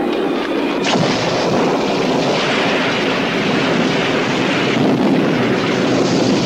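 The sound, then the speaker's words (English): A violent summer thunderstorm roars as a loud, continuous, rumbling wash of noise, broken by a couple of sudden, harsher bursts. “It was a violent summer storm.”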